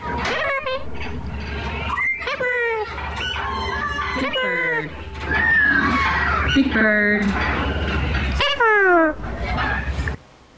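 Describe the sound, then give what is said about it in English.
Sound run through a fully wet pitch shift effect, turned into squawking, bird-like tones with many quick gliding harmonic sweeps rising and falling, loud and dense throughout. “Here's the pitch shift. We all love a good pitch shift, and these things like to be on 100% wet.”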